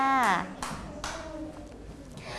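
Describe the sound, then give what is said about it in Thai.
Young children in a classroom clap for their classmates' artwork. A child's voice comes first, followed by a few short bursts of light, uneven hand clapping. “ปรบมือให้กับเพื่อนหน่อยค่ะ”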